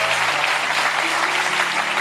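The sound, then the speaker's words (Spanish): Applause from an audience during a religious sermon: a continuous, dense patter of many hands clapping at an even loudness throughout, with a faint low hum beneath. “No me da mucho aplauso aquí. No me da mucho aplauso.”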